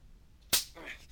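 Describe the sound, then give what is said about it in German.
A single sharp whip crack as a lash is struck across someone's face, snapping out loud and bright over a quiet background. “So ein kleiner Hieb mit der Peitsche mitten ins Gesicht wird deinen Zorn schon anregen.”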